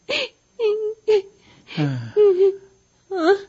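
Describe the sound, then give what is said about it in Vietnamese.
Whimpering, wailing sobs from a grown man crying alongside a child, rising and falling in several separate voiced bursts with short gaps between, moderately loud with no words. “Chú, sao chú cũng khóc một chú tội nghiệp cho cháu lắm hả?”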